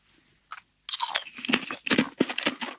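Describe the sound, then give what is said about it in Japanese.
Crunchy kettle-fried black pepper potato chips are bitten and chewed. A light first crunch is followed by a run of loud, dense, crackling crunches. “はい、いい音だ。片揚げの音するよね。すごい片揚げの音がする。普通のポテチと違うんですよね、音ね。”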